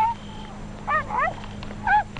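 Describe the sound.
A dog barks excitedly in short, high, yipping bursts with a whining edge. There are three clear calls, two close together and one later, over a low steady background hum.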